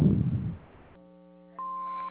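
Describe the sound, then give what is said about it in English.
A single steady electronic beep from a home answering machine, held for about half a second after a stretch of faint line hum. “So if you'd like to leave a message, you can do so after the beep.”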